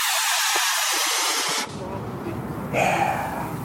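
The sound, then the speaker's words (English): A Big Bertha model rocket lifts off on an Estes C-5-3 motor with a loud, steady rushing hiss that drops to a lower, rougher rush after about a second and a half, with talk underneath. “The Rocket Noob flying the Big Bertha on an Estes C-5-3. That one has continuity going up in 5, 4, 3, 2, 1. Liftoff.”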